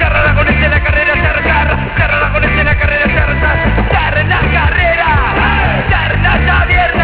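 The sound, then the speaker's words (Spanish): A concert audience yells and cheers in a loud, continuous roar of shouting voices that holds steady throughout. “Aquel público levantando el puño”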